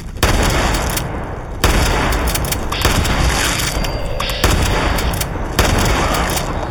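Gunfire in a post-apocalyptic video game, fired at creatures: loud, dense bursts of booming shots that run almost continuously, with a few sharp renewed volleys breaking through the sustained roar.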